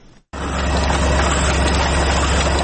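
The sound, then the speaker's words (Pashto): A printing machine runs as it prints pages of a small book, a loud, steady mechanical drone that starts abruptly after a short gap and holds an even level throughout. “دا چاپ دغه ماشین کې پراته کاغذونه د یو واړه کتاب دی”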